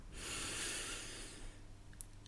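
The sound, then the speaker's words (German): A single slow, deep inhale taken during a guided breathing exercise, a soft airy rush lasting over a second, quiet, then near silence with faint ticks. “beginnen die Übung gemeinsam mit ein paar tiefen Atemzügen. Atme ein,”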